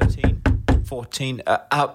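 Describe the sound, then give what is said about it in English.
Knocking on a door comes as four quick, evenly spaced raps, followed by a voice speaking. “when there came a knock on the door.”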